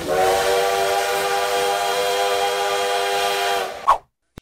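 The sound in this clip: Steam locomotive whistle giving one long, steady, harmonic blast for almost four seconds, then cutting off abruptly with a brief hiss and a final faint click.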